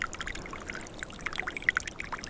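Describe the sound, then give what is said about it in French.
A thin trickle of water flowing through a forest, faint and soft, with gentle gurgling and small irregular plinks of droplets, quiet and steady throughout. “glisse un filet d'eau.”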